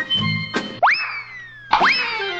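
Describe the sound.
Cartoon boing effects accompany a bat hitting a pitched ball during casual batting practice. After a few dull thumps come two springy boings, each snapping upward in pitch and then trailing off into a long, slowly falling tone.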